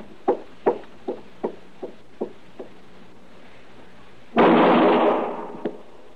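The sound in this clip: Gunshots fired in an alley ring out as a rapid series of seven sharp, decaying cracks that grow steadily fainter, then a longer, loud burst of rushing noise follows.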